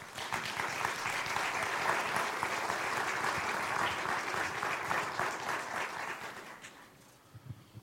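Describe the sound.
A church audience at a missions event applauds to welcome missionaries to the stage. The clapping is full and sustained for several seconds, then thins and fades out, with a few scattered claps at the end.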